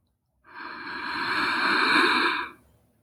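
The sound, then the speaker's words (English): A slow, deep inhale during a guided meditation breathing exercise: one steady, airy breath lasting about two seconds, building gently in loudness before stopping. “Really trying to exhale for longer than you inhale, in your own time or together with me. Inhale.”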